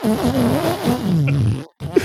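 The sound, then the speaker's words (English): A drawn-out fart noise sound effect: a wobbling, buzzy low tone lasting about a second and a half, then a brief gap of silence and a short squeaky blip. “it's gonna be a super fart noise.”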